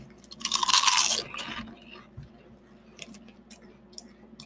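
Crunching of a plain potato chip, one loud crisp bite followed by faint, scattered chewing crackles.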